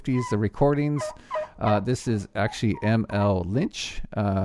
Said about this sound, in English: And this, what you're hearing is the Turkey Hen Calls.